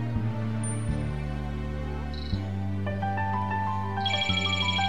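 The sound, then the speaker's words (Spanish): A telephone rings with an electronic ringtone: bright tonal beeps and short melodic notes, growing busier in the second half over a steady low hum. “Teléfono, un momentito.”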